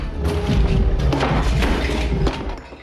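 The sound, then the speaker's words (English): Objects pulled off a desk crash and clatter onto the floor, a gun dropped among them: a few loud thuds and sharp impacts over a continuous rattling jumble, ending abruptly. “He goes over to a desk and pulls things off it onto the floor. He drops his gun in the process.”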